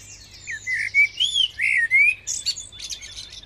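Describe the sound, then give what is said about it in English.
Blackbird song played along a hospital's main corridor: several clear, fluting whistled phrases that rise and fall in mid-high pitch, separated by short pauses, heard alone over a faint, steady low hum. “you hear the sound of a blackbird going up the main corridor”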